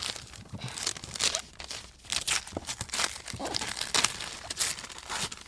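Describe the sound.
Wrapping paper on a gift tears and crinkles in a long series of crackly, papery rips and rustles, loud and continuous with no voices.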